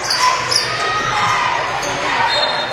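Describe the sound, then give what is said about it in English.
A basketball being dribbled during a game gives off repeated sharp bounces over a busy background, with talk running underneath. “Up the left sideline, dribbles it off the foot of Cathcart.”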